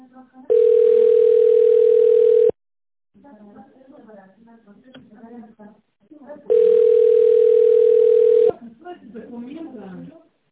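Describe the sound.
A telephone line tone plays while a number is called: two long, steady, loud hums of about two seconds each, separated by a few seconds of a woman talking.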